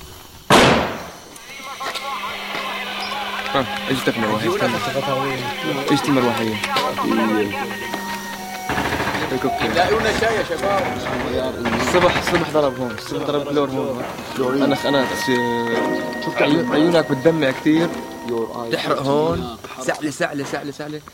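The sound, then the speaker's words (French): A single sharp, loud gunshot from an M16 rifle firing 5.56 mm rounds bursts out at the start, followed by a long stretch of voices talking over a busy tonal background. “Ça, c'est une balle de M16. C'est 5,56, donc c'est pas très gros, mais ça part avec une très forte vélocité, donc ça fait des bons dégâts.”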